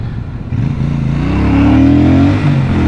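A Royal Enfield Meteor 650 motorcycle engine accelerates on an open A road, its steady, loud, low throbbing note climbing in pitch midway through and then holding.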